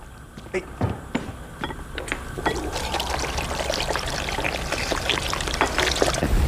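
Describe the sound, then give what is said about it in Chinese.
Spring water runs through a water pipe laid from a mountain spring down to a reservoir, giving a steady splashing, trickling pour with scattered light clinks and drips throughout. “就这水管，然后呢，我们是什么呢？铺这个水管，山泉引过来，一直通到山下的蓄水池。”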